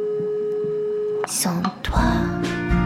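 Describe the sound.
A telephone line tone follows a cut-off call in a French pop song. A steady single tone holds for a little over a second, then music with a sung voice takes over.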